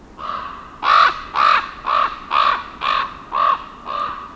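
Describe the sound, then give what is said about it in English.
A crow cawing: a steady run of harsh, loud caws, about two per second, each one short and evenly spaced. The calls are alone, with no voices or other sounds. “Crows give a cawing sound, while ravens produce a lower croaking sound.”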